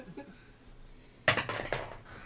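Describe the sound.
Dice rolled in a tilted bowl: a quiet pause, then a sudden clattering rattle as the dice tumble and bounce against the bowl for under a second before settling.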